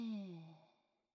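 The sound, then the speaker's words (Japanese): A single quiet sighing exhale during a guided deep-breathing exercise, voiced and breathy, its pitch falling as it fades away over about a second. “よし、息を大きく吸って、一瞬止めて、吐いて、”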